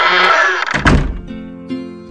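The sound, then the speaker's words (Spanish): A tower door shuts with one solid, heavy thump, set between sustained tonal music before and after the impact. “en cuanto se cerró la puerta de la torre”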